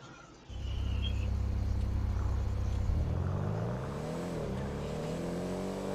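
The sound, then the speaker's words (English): A sports car engine in a video game, a Schwarzer, kicks in with a loud, steady rumbling drone, then revs upward in pitch before settling into an even hum as it drives. “Should I drive my lifeguard emergency vehicle? Or should I drive my Schwarzer? I'm gonna drive my Schwarzer.”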